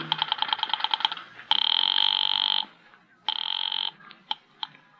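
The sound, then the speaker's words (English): Telephone signals on a switchboard line: a fast run of about a dozen short tonal pulses, then two long buzzing tones separated by a brief gap, and a few short blips at the end. “I went out to the switchboard and dialed the courthouse number.”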